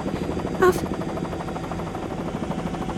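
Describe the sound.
Helicopter rotor noise, a loud, steady, throbbing drone with a rapid, even pulse that continues unchanged throughout.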